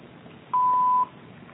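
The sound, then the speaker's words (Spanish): A single steady voicemail beep tone, clear and mid-pitched, lasting about half a second over faint phone-line hiss. “Por favor, deje un mensaje después del tono.”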